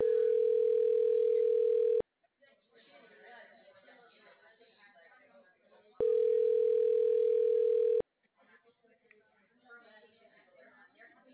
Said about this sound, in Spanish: que me están entrando una llamada.